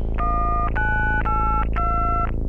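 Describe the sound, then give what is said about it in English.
Keypad dialing tones entered to set a year on a machine: four steady two-note beeps, each about half a second long, follow one another in quick succession over a constant low hum. “Dialing year.”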